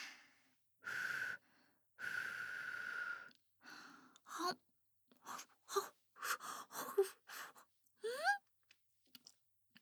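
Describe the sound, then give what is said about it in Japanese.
Soft mouth sounds of someone eating a freshly baked roasted sweet potato with the skin on: breathy puffs, then many short, quiet bites, smacks and chewing noises in an irregular rhythm. “あ、しっかり洗ってあるから皮ごと食べちゃっても平気だかんね。どれどれ、出来たての焼き芋の味はどうかなった。”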